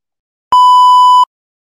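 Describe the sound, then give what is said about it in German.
A single short electronic beep, steady and fairly high in pitch, sounding loudly for under a second with silence before and after. “jetzt kommt jetzt ein kleiner Piep und dann würde ich sagen, tschüss, bis gleich.”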